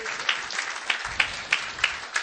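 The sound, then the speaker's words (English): A church audience applauds a couple asked to stand, the clapping falling into a regular beat with evenly spaced louder claps over a steady patter. “Tiffany and Kyle, stand up. Give them a big hand and welcome them to the greatest church in the world.”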